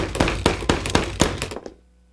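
Heavy knocking on a door: several loud, rapid, evenly spaced thumps pound in a steady rhythm, then stop abruptly, leaving a quiet tail.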